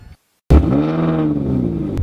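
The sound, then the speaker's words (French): Car engine revving through an Armytrix exhaust with its valve closed, bursting in after a brief silence into a loud, sustained rev with rich harmonics that climbs and then eases slightly over about one and a half seconds. “Oh, avec un échappement Armitrix.”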